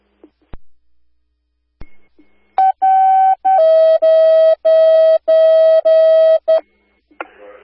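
A fire dispatch alert tone sent to home receivers: after a few faint clicks, a run of loud, steady electronic tone bursts follows with short gaps, then one final brief burst.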